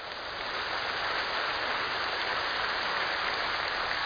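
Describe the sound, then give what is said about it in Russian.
Concert audience applause: a smooth, hissing wash of many hands clapping that holds a constant, fairly quiet level throughout, with no voices above it. “Я оценил ваши аплодисменты”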